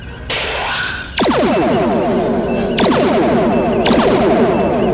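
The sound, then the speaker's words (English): Sci-fi weapon bursts as photon torpedoes are fired and strike during a space battle: a few sharp, bright electronic blasts, each followed by a dense, ringing, rippling texture that layers into a loud, continuous din. “Torpedoes away! Minimal damage to their forward shields.”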